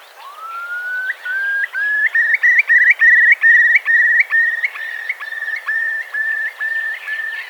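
A curlew calls at an estuary: a rising whistled note opens into a loud, bubbling run of repeated warbling notes that climb slightly and then trail off, clear and alone.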